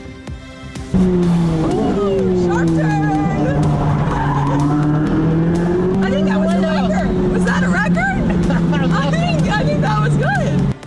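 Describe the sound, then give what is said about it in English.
A race car's engine roars at a steady, sustained pitch with slight swells as it speeds through the streets of Washington, D.C., ahead of a weekend race, with voices murmuring underneath. “News Nation taking a high-speed spin through the streets of the nation's capital ahead of a historic weekend race”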